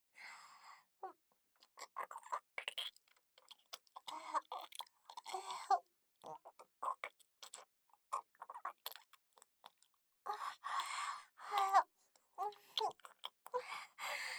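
Someone chews juicy, sweet food in many close, wet, crunchy bites, coming in irregular bursts with short pauses between them. The chewing is quiet and heard alone, without talking.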